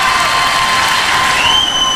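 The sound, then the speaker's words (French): An audience applauding and cheering for a Miss France 2024 titleholder who is also first runner-up of Miss Supranational. The clapping and shouts form a loud, dense roar that holds steady throughout. “Et là, il y a une nouvelle écharpe, ça s'applaudit.”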